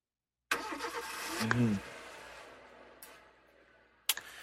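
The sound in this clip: A car engine starting: a sudden burst of cranking noise that settles into a steadier, fading engine rumble, then a second sharp burst near the end.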